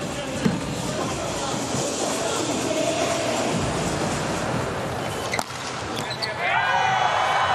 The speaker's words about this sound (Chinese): 发球直接得分。